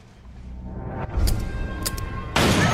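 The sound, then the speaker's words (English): Gunshot from the end of the film Halloween, where Laurie shoots Michael in the head: a few sharp bangs over a low background, then a loud, sustained noisy burst near the end. “And there's some audio from the end of our first film for those who forgot that Laurie shot Michael in the head.”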